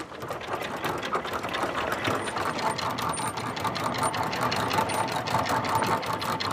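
A large anchored ship hauls its anchor chain up at the bow, with seagrass caught on the links. A steady mechanical rattling and clattering runs continuously at an even level, with faint high clinks scattered through it.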